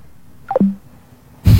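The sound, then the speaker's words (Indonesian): A phone line cuts off during a radio call-in: a quick descending run of short electronic tones settles into a brief low note, then a loud burst of noise follows after a short pause. “Oke, terputus, silakan dicoba lagi ya.”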